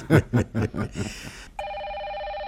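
A telephone rings with a steady, continuous electronic tone. The ring starts partway through and holds evenly to the end.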